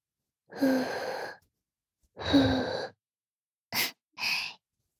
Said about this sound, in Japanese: それともお耳ふうふうして冷ましてあげようか。